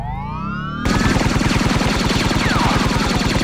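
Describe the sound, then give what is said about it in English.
Rapid automatic gunfire from a Cashmere Arms rifle: a loud, sustained burst of many shots in a fast, even rhythm. It starts abruptly after a short, rising, whining tone. “Cashmere Arms were no fools when they designed this rifle.”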